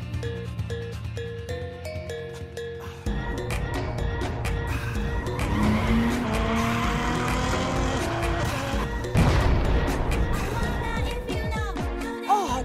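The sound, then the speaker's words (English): Car being driven fast, with tires blowing out: a loud, sustained roar and squeal of tires, broken by sudden louder bursts, with a few tonal sounds layered over the noise. “I just totally blew my tires! Why were you even going so fast?”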